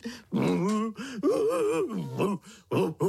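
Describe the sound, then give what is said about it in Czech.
Crying from a young child being told not to cry: loud, drawn-out wailing sobs with a voiced, moaning pitch that wavers up and down, coming in several bursts separated by short gasping breaks. “Nebreč”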